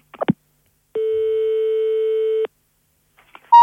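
Ringing tone of an outgoing phone call: one steady, mid-pitched tone lasting about a second and a half, with faint clicks before and after it and another tone beginning at the very end.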